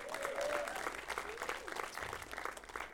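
Applause from a church audience for a couple who have just welcomed a baby boy, a fairly quiet, even patter of many hands clapping that carries on throughout.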